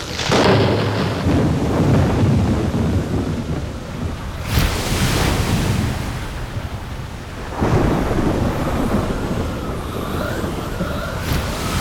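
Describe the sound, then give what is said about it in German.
A thunderstorm with a heavy cloudburst: three loud, booming thunder crashes break over a continuous roar of pouring rain. “Ein Wolkenbruch stürzte herab, alles wurde dunkel. Die einzige Beleuchtung war der Blitz.”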